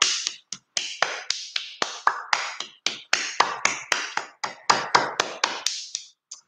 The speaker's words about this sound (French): vous pouvez aussi frapper. Alors, faites attention de ne pas frapper en rond parce que là, les chakras ne se touchent pas, mais un petit peu décalé. Allez, on sollicite comme ça.